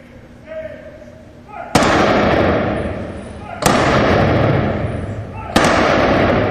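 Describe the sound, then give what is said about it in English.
A ceremonial rifle volley honoring veterans at a memorial program: three loud, sharp cracks roughly two seconds apart, each ringing out in a long decaying tail, after a faint voice at the start. “The hour and a half program ended with the rifle volley and taps to honor the veterans who have given their lives.”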